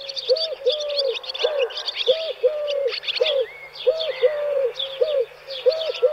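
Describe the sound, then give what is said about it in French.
A Eurasian collared dove coos in a steady series of repeated soft, hooting notes, while other small birds chirp and twitter in quick, high bursts throughout. “La tourterelle turque a un petit bec et des pattes oranges.”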